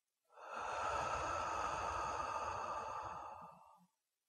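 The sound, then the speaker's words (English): A slow, deep breath drawn in through the nose and let out through the mouth, heard as one long, soft, steady airy rush lasting several seconds with no talk. “Take a slow, deep breath in through your nose and out through your mouth.”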